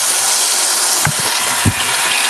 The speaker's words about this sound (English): Well, I wash my hands.